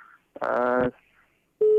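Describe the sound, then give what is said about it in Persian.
Telephone tones as a call-in line is cut off: a buzzy, harmonic tone lasting about half a second, a short silence, then a brief pure, steady beep. “من متاسفانه تلفنشان قطع شد.”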